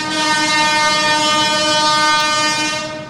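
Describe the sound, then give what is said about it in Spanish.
A train horn blares in one steady, loud, unbroken tone, with rumbling rail noise underneath throughout. “Qué lindo que suena el tren.”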